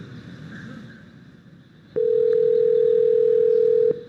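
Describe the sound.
A telephone ringback tone on a call to a small restaurant: one steady, loud, plain beep of about two seconds, preceded by soft line hiss.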